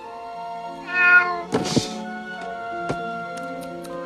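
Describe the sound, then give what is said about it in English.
A live cat meows from inside a shoebox being buried in a shallow grave. A couple of short, clear meows rise over a steady sustained tonal drone. “They bury a shoebox with a live cat inside.”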